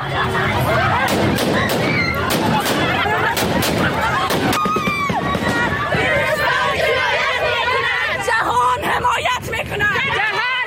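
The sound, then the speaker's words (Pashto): A women's protest crowd in Kabul chatters and shouts loudly throughout while gunfire is fired into the air to disperse them. Several sharp cracks stand out over the din in the first half. “دا په کابل کې د خزو هغه اعتراض و چې طالبانو په هوایي ډزو تیتو برک کړ.”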